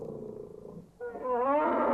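A wounded bear roaring as a story sound effect: a low, rumbling growl breaks off, then a louder, sustained roar with strong harmonics rises and holds to the end.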